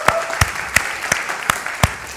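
Church audience applauding the youth group at a Youth Sunday service: about seven evenly spaced, sharp claps in a steady rhythm, loud and crisp against a quiet background.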